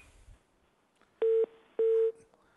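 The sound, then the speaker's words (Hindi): Two steady, mid-pitched telephone line beeps as a phone-in call drops, each about a quarter second long with a short gap between, clear and alone after quiet line noise. “अच्छा, तो ये हमारे पास call drop हो गई।”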